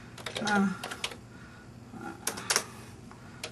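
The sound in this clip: Computer keyboard being typed on, with quiet, irregular clicks of keys in short clusters and brief gaps between them.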